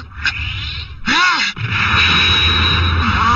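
Cartoon sound effect for a spinning, curving soccer ball shot in an animated football match: a loud sustained whooshing whir with sweeping, swirling tones and a brief dip in the middle.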